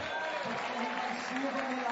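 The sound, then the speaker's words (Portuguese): An audience applauds to praise God during a Sunday church service, following a woman's healing testimony. The clapping is steady and moderately quiet, with voices over it. “Pode aplaudir o rei.”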